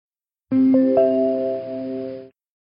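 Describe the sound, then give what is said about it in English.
A doorbell chimes three quick tonal notes. Each note stacks onto the last, then all of them ring together, clear and sustained, for about two seconds before stopping abruptly against silence. “That's my doorbell.”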